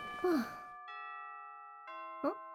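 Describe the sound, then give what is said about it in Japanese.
A school chime rings in two sustained, bell-like electronic tones, the second starting about a second after the first and both held steadily. Brief sighing voice sounds come just before and just after, over otherwise quiet, faint audio. “だってチャイム鳴ったし”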